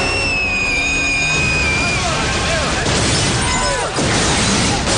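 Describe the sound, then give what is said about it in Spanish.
A building exploding in a horror film as flames burst outward, a loud, sustained roaring blast that lasts throughout, with tonal score notes fading early on. “El edificio estalla, las llamas escapan al exterior.”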